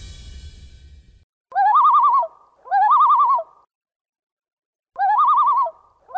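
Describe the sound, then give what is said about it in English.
A common loon in Minnesota calling, with three loud wavering tremolo phrases of about a second each separated by silent gaps and a fourth just beginning, following a brief stretch of low rumble. “if you're a Minnesotan, you likely know that sound, and hopefully it creates a positive reaction and feeling in you as it does with us. You know, the Minnesota loon couldn't be more iconic.”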